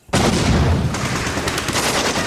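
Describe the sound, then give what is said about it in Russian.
Gunfire erupts in an ambush shootout as bandits fire from a ruined building: a dense, continuous, loud rattle of shots that stays sustained throughout, with no voices heard. “Засада! И тут же из разрушенного здания бандиты открывают бешеный огонь. Начинается перестрелка.”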